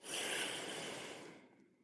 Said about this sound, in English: Breathe in to the count of five. Breathe out.